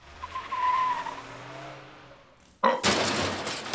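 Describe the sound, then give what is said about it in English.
Tires skidding on a Mazda Miata driven around a back lot: a low engine drone is followed by a sudden loud, harsh burst of screeching noise that holds to the end. “Nah, he's outside driving the Miata in the back lot.”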